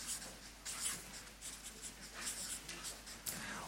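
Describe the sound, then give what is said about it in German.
Handwriting with a pen on paper: quiet, continuous scratching with irregular strokes and small pauses, heard alone. “Ach, ich wollte hier weiter schreiben, sehen Sie.”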